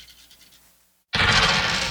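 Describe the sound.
Eight six-sided dice are rolled for damage during a tabletop role-playing game: a sudden loud, continuous clattering rattle breaks in after a quiet pause and carries on steadily to the end.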